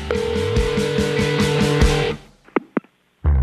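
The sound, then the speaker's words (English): Electronic telephone voicemail tones: a steady, buzzy pulsing tone pattern lasts about two seconds, then fades to near silence broken by two short sharp beeps and a final burst. “It's time to check Adam's voicemail.”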